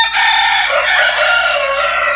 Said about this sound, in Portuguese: Dois galos cantando.